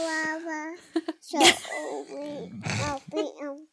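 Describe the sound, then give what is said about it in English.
A one-year-old toddler babbles and sings in the background, with drawn-out high voiced tones of wavering pitch broken by short breathy bursts and squeaky syllables. “Real live background toddler. Yes. Which is what we wanted. Yes. Yeah, well, it's really a one-year-old babbling. It's like really honestly beautiful. Singing away.”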